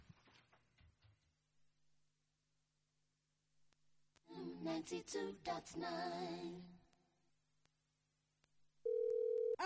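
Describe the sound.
A telephone ringing tone sounds once near the end: a single steady, buzzing electronic tone, loud and abruptly cut off after quieter, muffled stretches.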